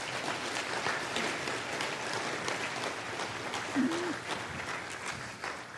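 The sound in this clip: Audience applause welcoming guests onto a stage: dense, steady clapping that holds at an even level for the whole stretch, without a clear break.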